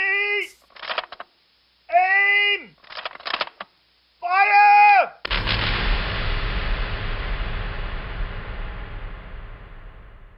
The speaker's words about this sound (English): Even if you've never heard the term squib, you've likely seen thousands of them used in film and TV as a practical effect that is used to simulate the moment a bullet impacts a surface.